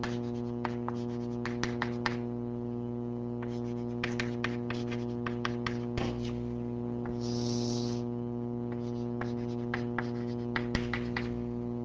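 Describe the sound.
Writing on a board during a mathematics lecture on cross ratios: many faint, short scratchy strokes and taps in an irregular run, with a soft smeared scrape in the middle and no talking.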